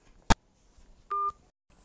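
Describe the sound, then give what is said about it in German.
Telephone sounds as a call is hung up: a sharp click, then a short electronic beep a moment later, set against near silence. “Okay, das war erstmal der Anruf, den ich aufgelegt habe.”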